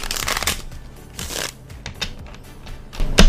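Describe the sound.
A tarot card deck is cut and shuffled, producing quick papery riffles and flutters throughout, with a sharp, louder snap at the end.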